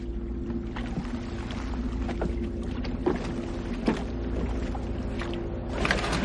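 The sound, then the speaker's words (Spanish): Rowboat being untied and boarded at a lakeside jetty by day. A steady wash of water and low rumble carries a few soft knocks and bumps, with no talking. “Tron desata una barca, monta en ella”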